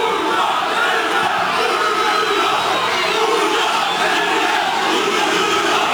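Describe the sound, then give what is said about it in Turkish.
A crowd in a public square cheers and chants during a speech by Erdoğan, producing a loud, sustained roar of massed shouting that stays constant from start to finish. “Konuşması zaman zaman tezahüratlarla kesildi.”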